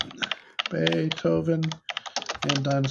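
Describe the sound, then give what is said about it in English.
Typing on a mechanical computer keyboard makes sharp, clicky keystrokes in an irregular patter beneath a person talking over it. “See, listen to my nice mechanical keyboard audio. It's good ASMR.”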